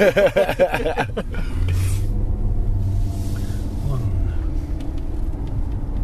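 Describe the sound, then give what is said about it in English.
Steady low engine hum and road rumble inside a new left-hand-drive car driving through a town, continuous throughout, with a voice briefly audible at the start. “Nothing worse than navigating a new town in a new car for the first time. And it's left-hand drive, with someone sitting next to you trying to record a podcast at the same time.”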